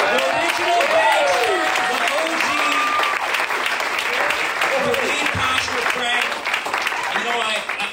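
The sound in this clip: Sustained audience applause at a church service, dense and steady from start to finish, with voices and cheers rising above the clapping.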